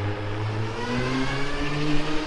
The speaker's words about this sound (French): Évidemment, je fais doubler par les motos, hein, y a pas de doute.